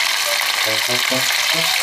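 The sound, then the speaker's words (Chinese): Floured fresh herring frying in hot oil until golden on both sides gives a steady, loud, hissing sizzle that runs without a break. Faint low, clicking tonal bits sit under the crackle. “用面粉在鱼身上薄薄抹一层，将青鳞鱼下锅炸到两面金黄，就大功告成了。”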